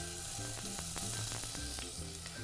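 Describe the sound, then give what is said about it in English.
Spanish onion sweats in extra virgin olive oil in a pan, giving a steady, even sizzle that runs throughout without any talking. “I'm just going to take a little bit of extra virgin olive oil here, and I'm just going to sweat a little bit of Spanish onion here.”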